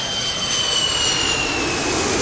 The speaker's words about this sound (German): Da kommt ja schon das nächste Flugzeug.